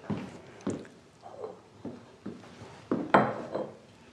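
Glass bottles are picked up and handled, giving several faint clunks and light clinks spaced irregularly, with a brighter glassy knock near the end.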